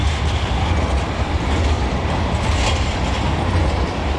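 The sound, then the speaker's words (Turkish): A tram passes very close on a double-track tramway, making a loud, unbroken rumble and rattle of wheels on rails from start to finish, with no voices. “Tramvay yolu varken biz bu bölgedeki açıları tam olarak, mesela şu an tramvayın geçtiği”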